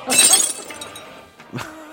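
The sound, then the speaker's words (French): Glass shatters in a sharp, bright crash that rings briefly, followed by a second, smaller burst of breaking glass about a second and a half later. “J'ai cassé le verre.”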